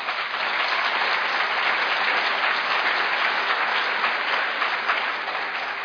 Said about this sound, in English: it always amuses me when they clap during that portion of my pitch